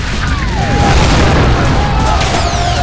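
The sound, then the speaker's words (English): Tanks opening fire in a battle scene, a loud, dense roar of booming blasts and rumbling noise, with descending whistling streaks cutting through near the start and again at the end. “Tanks open fire.”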